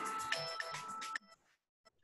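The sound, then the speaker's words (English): A mobile phone rings with a bright, melodic electronic ringtone for about a second, then stops abruptly, leaving faint scattered noises. “sorry about my phone there”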